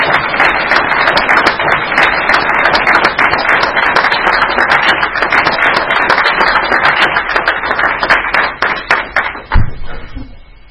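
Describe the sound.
Audience applause welcomes a speaker at a New Year's Eve gathering: dense, sustained clapping from many hands that runs loud and steady, then thins out near the end with a final dull thump.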